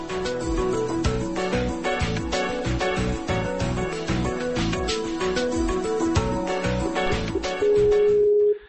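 An outgoing Skype call rings out as a steady electronic ringtone that repeats for about eight seconds and ends on a brief held tone.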